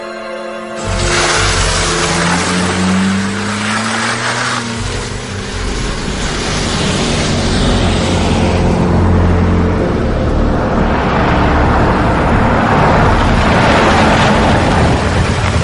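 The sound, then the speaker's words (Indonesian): A car accelerates as an online taxi driver steps on the gas: a loud, steady engine roar with rising tones early on, then a sustained rush of engine and road noise. “Tanpa pikir panjang, aku langsung tancap gas menjemputnya.”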